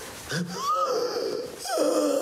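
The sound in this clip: Wheezing from a choking child struggling for breath: thin, whistling, strained breaths that stay fairly faint and continuous.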